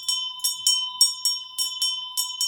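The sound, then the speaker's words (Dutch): Bells ringing with bright, high-pitched metallic strikes repeated many times in a quick, steady rhythm over a constant high tone, with no voices. “Waarom bellen ze, grootvaar?”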